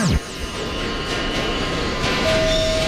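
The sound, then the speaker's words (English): A subway train runs along the express track with a continuous, heavy rumbling roar that stays steady throughout. A thin, steady tone rises out of the noise near the end. “Now a Z train running on the express track.”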